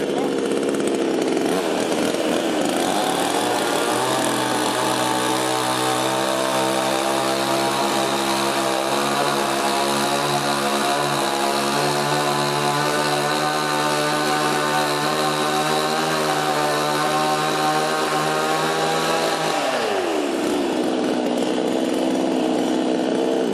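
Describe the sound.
A handheld power tool cutting, its motor roaring loud and continuously, rising to a high, steady whine that holds for most of the stretch before winding down sharply near the end.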